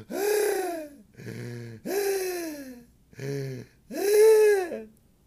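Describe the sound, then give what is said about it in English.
A voice imitates pained, gasping inhales of freezing cold air while walking up Second Avenue: five strained, pitched gasps, each arching up and then down in pitch, with short gaps between them. “it was so cold that when I would breathe in, it would hurt. It would hurt when I would breathe in, I would make a noise, right? So I'd just be walking up Second Avenue, I'd go,”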